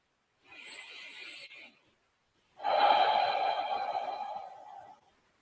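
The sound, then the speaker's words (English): Deep breathing exercise: one slow airy inhale through the nose, a short pause, then a louder, breathier exhale through the mouth lasting about twice as long, heard alone. “take three deep breaths in through the nose and out through the mouth. The out breath should be twice as long as the in breath”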